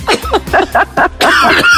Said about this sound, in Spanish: le está dando un ataque de tos